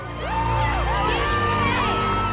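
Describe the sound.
Excited whoops and cheers from people on a beach watching a surfing competition, loud shouted voices swooping up and down in pitch through the short burst.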